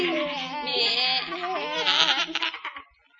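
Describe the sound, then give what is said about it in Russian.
Goats bleat in a wavering, nasal chorus that holds steady for nearly three seconds, then breaks into shorter bursts and fades out. “Козоньки! Козы!”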